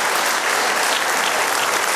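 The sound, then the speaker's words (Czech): An award ceremony audience applauds a nominee who is absent: loud, continuous clapping from many hands, held at an even level from start to finish. “Tak víte co? I když tady teď není, pojďme mu teď zatleskat”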